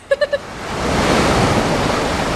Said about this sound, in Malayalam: ദേ നീ നോക്കിയേ, ഒരു ഉഗ്രൻ തിര അടിച്ചു കയറി വരുന്നുണ്ട്.